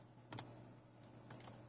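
Typing on a computer keyboard: a few faint, scattered key clicks over a steady low hum.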